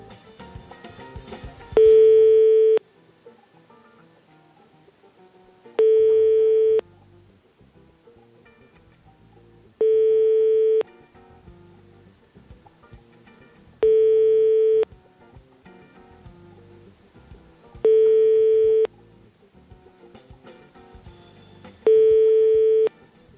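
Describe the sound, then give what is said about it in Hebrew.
Six repeated bursts of a steady telephone busy tone after a call is cut off, each lasting under a second and spaced about four seconds apart, with faint low background noise between them. “נתקו לי את הטלפון, אני לא מבין.”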